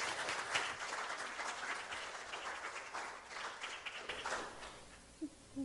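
Church audience applauding a guest preacher's introduction at a morning service, a steady, fairly faint wash of clapping that carries through, with one sharper tap near the end.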